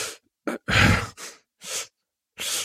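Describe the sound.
A voice imitates heavy breathing through the mouth, giving about five loud, raspy bursts of air, the longest one early on, separated by short silent pauses.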